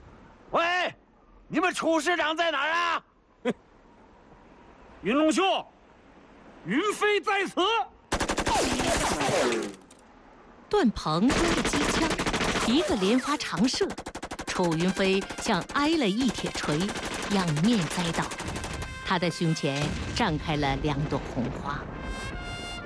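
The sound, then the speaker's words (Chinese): A long burst of machine gun fire in a battle scene between soldiers: a sustained, rapid clatter of shots runs for many seconds beneath and between spoken voices, following an opening stretch of talk. “段鹏挥着机枪，一个连发长射”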